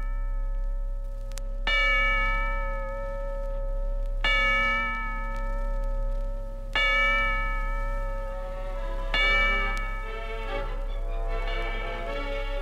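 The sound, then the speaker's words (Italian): Church bells toll the hours from a bell tower above a quiet cloister: four bright, silvery strikes spaced a few seconds apart, each ringing on in a long shimmering decay over a low steady hum. “le rondini roteanti intorno al campanile da cui scendono i rintocchi argentini delle ore”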